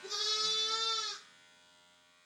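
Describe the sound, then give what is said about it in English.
A single sheep bleat, a steady, strongly voiced cry lasting about a second, followed by silence and a sharp click at the very end. “The sheep has a thick coat of fleece on its body.”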